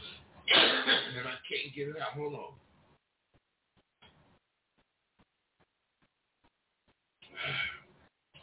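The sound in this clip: A man clears his throat in a run of harsh, rasping bursts, then falls quiet before one more short throat-clearing near the end.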